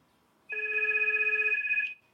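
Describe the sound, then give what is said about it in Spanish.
A telephone rings once with a sustained electronic tone about one and a half seconds long. The bright ring has a fast trembling warble and no talk. “¿Está sonando el teléfono? ¿Dónde? ¿Qué teléfono está sonando?”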